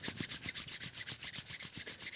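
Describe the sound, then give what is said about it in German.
Hands rub together during a guided relaxation exercise, producing a faint, soft swishing friction sound in many quick, evenly paced back-and-forth strokes, with no voices. “Du kannst deine Hände aneinander reiben”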